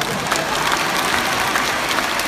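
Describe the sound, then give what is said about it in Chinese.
Audience applause at a Buddhist dharma talk: dense, steady clapping from a crowd that holds at an even loudness throughout, with no voices above it. “鼓掌呀！”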